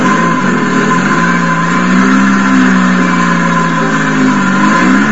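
A car engine runs on a little gasoline after running on straight methanol. It makes a steady, continuous drone with a slight waver in pitch midway, and no other sounds.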